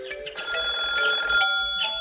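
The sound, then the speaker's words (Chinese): A telephone rings with a steady, continuous bell-like tone, loud and unbroken across the whole moment, with no voices over it. “正在这时，电话响了。”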